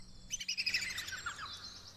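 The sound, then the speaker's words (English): A green bird gives a shrill laughing call, a quick run of high, sharp chirping notes that tumble together and then trail off into thinner, fainter tweets. “Watching him from a high branch, a green bird taunts Mouse with its shrill laughing call.”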